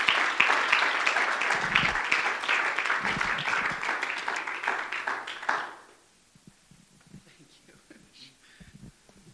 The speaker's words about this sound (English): Let's give her a hand of welcome.